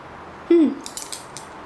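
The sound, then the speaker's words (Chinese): Keys jingle briefly as someone leaves home to take the elevator downstairs: a few bright, light metallic clinks in quick succession. “还好我没有忘记钥匙”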